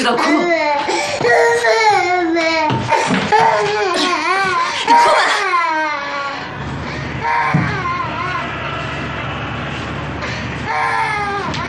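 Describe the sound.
A young child cries loudly during a heated domestic argument, with sustained wailing sobs whose pitch wavers up and down, then continuing with slightly quieter crying toward the end.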